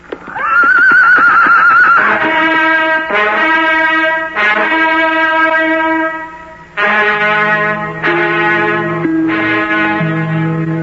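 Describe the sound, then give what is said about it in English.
Horses neighing loudly as riders gallop off through a forest: a wavering whinny opens, then a run of long, bright, harmonic neighs follow one another almost without pause. “So the two friends gallop off through the forest to end the eventful day.”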